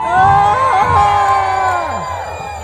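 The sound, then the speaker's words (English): An audience yells and cheers a greeting in unison with their arms in the air. The shout is loud and sustained, then fades toward the end. “the proper response is to throw your arms in the air, wave them around, and yell as loud as humanly possible. Let's give that a go. Everybody, arms at the ready? Arms at the ready. Hello, humans!”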